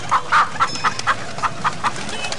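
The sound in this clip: Chickens clucking in a village, a run of eight short, pitched clucks in an uneven rhythm, fairly loud over a low background hiss.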